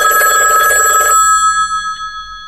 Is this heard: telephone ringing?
yes